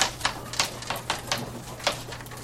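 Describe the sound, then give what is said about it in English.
Pen strokes scratch the word "Hebrews" onto paper, a series of short, crisp, scratchy bursts at an uneven rhythm over a steady low hum. “On my 1, I'm going to write down Hebrews.”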